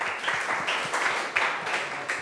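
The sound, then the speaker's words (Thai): Students in a classroom clap for their class leader: a dense, steady patter of many hands that continues at an even level for a couple of seconds, with no voices over it. “เยี่ยมมากปรบมือให้หัวหน้าห้องของเราหน่อยนะคะ”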